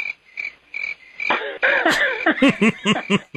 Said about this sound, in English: The crickets are out. Hear them? I do. I hear them.